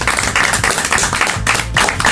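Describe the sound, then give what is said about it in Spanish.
Applause: brisk, dense clapping from a few people keeps going at a steady, fairly loud level, with no talk over it and only brief dips in intensity. “Y pido un aplauso para él.”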